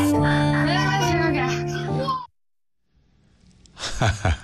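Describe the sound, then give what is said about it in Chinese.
Schoolchildren exclaim enviously in the background as a teacher thanks two classmates who brought fried chicken and burgers. A long, drawn-out chorus of young voices breaks off into silence, then a shorter exclamation follows. “后边这个小孩的声音是什么？老师这个买了炸鸡啊，什么汉堡啊，什么感谢他们俩的时候，其他的同学这个羡慕的声音啊。”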